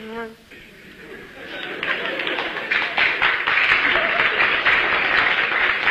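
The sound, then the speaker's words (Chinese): Scattered applause from a small audience at a comedy crosstalk performance. Clapping starts after a brief voice, then swells to a steady, moderately loud patter that continues to the end. “那这鼓掌的人不多呀。鼓掌的人都是南方人。”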